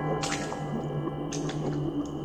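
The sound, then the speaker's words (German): Bare feet squelch wetly over muddy ground in a cemetery at night. Two soft, squishy steps sound over a steady low drone. “Mit nackten Füßen lief sie über einen matschigen Boden.”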